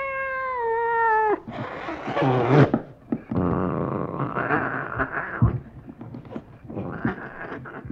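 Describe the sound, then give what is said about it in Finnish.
Cats meowing in a village near Lammi, Finland: one long, steady, tonal meow opens, then a run of rougher, wavering yowls and cries follows, loud and with no talk. “No kylläpä teillä on kissoja.”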